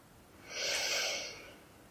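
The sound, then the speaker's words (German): A single slow inhale during a guided breathing exercise, a soft airy rush that swells and then fades over about a second, with no talk. “Und noch ein letztes Mal gemeinsam einatmen.”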